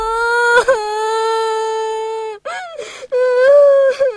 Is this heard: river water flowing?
no